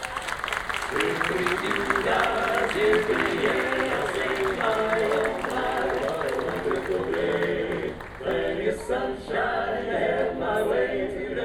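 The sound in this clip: Applause and crowd noise on Main Street USA at Disneyland greet the president of the Disneyland Resort, a steady, dense wash of clapping that holds loud for the whole stretch with only brief dips.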